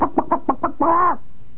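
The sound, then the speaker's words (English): A person imitates a chicken with their voice: five quick, clipped clucks in a bouncing rhythm, then one longer, drawn-out tonal squawk that sags in pitch as it ends. The imitation is loud and close. “somehow I love to imitate chickens.”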